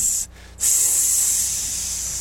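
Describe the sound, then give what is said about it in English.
Bacon sizzles as a steady, bright hiss that cuts out briefly near the start, then returns and continues evenly. “I got that bacon sizzling.”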